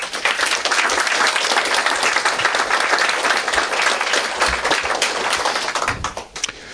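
Audience applause at an annual meeting of a blind people's association: sustained, dense clapping from many hands holds strong for several seconds, then thins and tapers away near the end.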